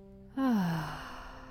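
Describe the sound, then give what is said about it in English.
A deep breath out through the mouth for a meditation exercise, heard as one voiced sigh that starts abruptly and slides down in pitch as it fades over faint sustained tones. “Inhale through the nose, nice and deep. Exhale out the mouth.”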